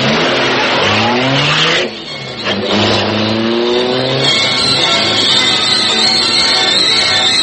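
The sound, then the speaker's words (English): A super-powered high-speed car engine accelerating hard, its loud roar climbing steadily in pitch, dropping briefly as if at a gear change, then climbing again. “super-powered Black Beauty high-speed car of the Green Hornet.”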